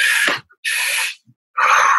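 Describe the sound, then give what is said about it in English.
A person taking a deep breath in two stages, first into the diaphragm and then into the chest, then breathing out through the mouth: two airy inhales separated by a short pause, followed by a breathy exhale. “one breath in from the diaphragm, one breath in from the chest, and then out through the mouth, all in one.”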